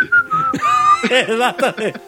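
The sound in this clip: A person whistles in imitation of the Curiosity Mars rover, giving short high-pitched whistled tones and then a quick string of warbling, voice-like chirps.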